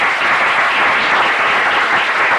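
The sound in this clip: Applause welcomes guests in the Senate gallery, a dense and even clapping that holds steady throughout with no voices over it.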